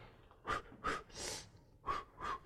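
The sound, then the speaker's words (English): A voice imitates short breaths: five quick, breathy huffs and gasps in an uneven rhythm, the middle one longer and hissier, all fairly faint. “I'm going to sing a song to Orma about taking short breaths. How does that song go again? It goes,”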